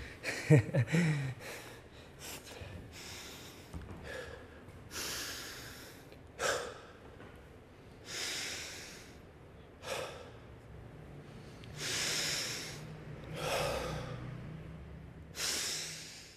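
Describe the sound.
Deep, heavy breaths of a person recovering after exertion: several long, airy inhales and exhales, each lasting about a second, separated by quieter pauses. A little faint rustling comes early on, and no one talks.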